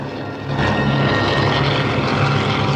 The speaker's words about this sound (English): brings the helicopter down lower as they approach the top of the plateau